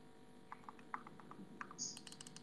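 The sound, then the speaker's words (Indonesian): Typing on a computer keyboard: a faint, irregular run of many light key clicks, with a denser cluster of quick taps toward the end. “Kita pick random karaoke saja, kita ketik di YouTube dengan menggunakan efek bodoh ini.”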